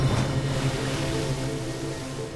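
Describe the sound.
Sea water washing steadily around a small boat without a motor, a continuous soft wash of surf noise at moderate level, with a faint low hum beneath it.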